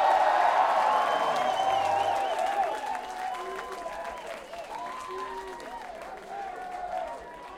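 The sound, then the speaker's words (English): A live concert audience applauds and cheers for the drummer, with dense, steady clapping that eases slightly in loudness as a voice speaks over it. “Give it up for Al Evans on the drums, everybody.”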